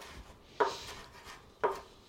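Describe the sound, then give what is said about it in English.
Two crisp knife chops through parsley being cut into tiny bits, sharp and evenly spaced, with quiet between them. “Finally chopped the parsley into little tiny bits.”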